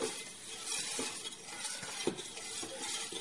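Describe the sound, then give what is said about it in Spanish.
A spoon stirring milk and flour together in a pot on the heat for a custard cream filling: a steady, soft swishing and scraping with an occasional light knock against the pot. “Estamos dándole vueltas a la leche con la harina ya.”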